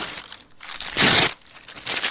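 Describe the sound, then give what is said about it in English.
Paper being ripped up: bursts of crinkling and tearing, with one long, loud rip in the middle standing out from shorter, rougher tears before and after. “Well, how much was it? I'm ripping it up right now.”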